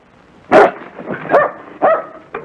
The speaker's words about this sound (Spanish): ¡Hey! Espera, espera, espera. No ladres, no ladres.